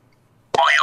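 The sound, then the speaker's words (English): A single springy boing from a sprung door stopper being flicked, bursting in abruptly after a near-silent start, loud and wobbling in pitch as it vibrates. “Who doesn't laugh when you kick the little door stopper that makes that boy, yo, yoing noise? It's hilarious every time.”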